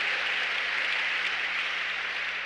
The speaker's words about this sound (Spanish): Dele un aplauso a la gloria de Dios.